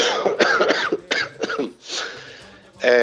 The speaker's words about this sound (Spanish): Perdón por la tos.